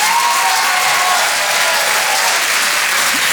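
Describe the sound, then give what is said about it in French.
An audience at a comedy club applauds a comedian, a loud, dense, unbroken patter of many hands clapping that holds steady for the whole few seconds. “Je vous demande de faire un maximum de bruit, s'il vous plaît, pour Mélodie Fontaine.”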